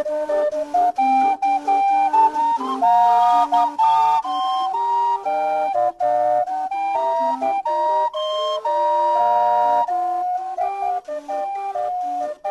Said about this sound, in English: That's the sound of the steamboat Natchez Calliope, and it was contributed by Chris Welker.